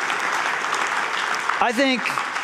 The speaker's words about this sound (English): That you should clap for. I'll let you clap for that.